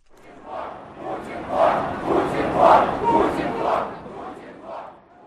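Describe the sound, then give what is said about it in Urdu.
A protest crowd chants slogans against the "tsar" at an opposition rally in Moscow's Pushkin Square, Russia. Many loud, rhythmic bursts of massed voices rise and fall in steady succession throughout. “روس کے 90 شہروں میں ہفتے کو زار مردہ باد کے نعرے گونج اٹھے۔”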